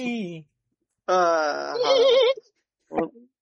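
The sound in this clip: A human voice imitates a mare neighing: a long, trembling whinny with shaky, quavering pitch. A brief vocal sound comes before it and a short, sharp burst follows.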